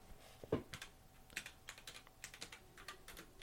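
Quiet typing on a computer keyboard: many light, irregular keystrokes tapping in quick, uneven bursts.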